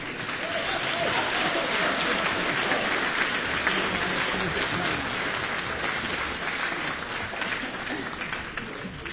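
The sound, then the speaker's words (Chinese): Audience applause at a Beijing variety show, a dense, steady wash of clapping that stays loud and even for the whole stretch, with some faint voices mixed in. “我谢谢您的鼓掌欢迎。”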